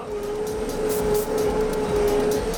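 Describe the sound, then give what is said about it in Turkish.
Steady engine drone and mechanical whine from a loader turning in place, its wheels on one side locked while the other side drives, holding a constant pitch at an even loudness throughout. “Bu arada bu yükleyicinin bir yanındaki lastikler dönerken öbür taraftakiler kilitlenebiliyor. Bu sayede olduğu yerde dönebiliyor.”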